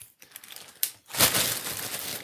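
Paper slips rustling as they are drawn and mixed in a container, with a few short, dry crinkling bursts followed by a longer continuous rustle.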